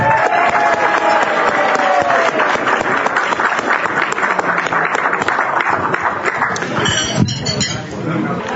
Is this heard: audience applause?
yes